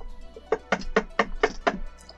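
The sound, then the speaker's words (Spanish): Knocking on wood: six hollow raps at an even, steady rhythm, fairly quiet and heard alone. “Toco madera. Partamos tocando madera. Hay que tocar madera el día de hoy.”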